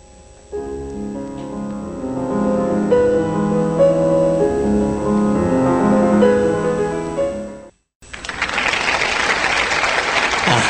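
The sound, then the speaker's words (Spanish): Applause sound effect: a dense burst of crowd clapping that bursts in after a stretch of tonal music and a brief silent gap, continuing loudly to the end. “Que nos manda un efecto de audio de aplauso. Ahí va.”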